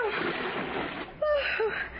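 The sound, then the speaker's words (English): Water splashes as someone wades the wrong way through it, a rough swishing of water heard alongside people talking. “You're wading the wrong way.”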